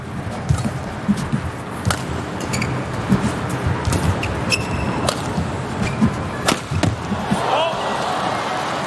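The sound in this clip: Sharp racket strikes on a shuttlecock in a men's doubles badminton semifinal deciding game, from a serve to the back court to an overhead straight-line attack. A few crisp hits stand out over steady crowd murmur.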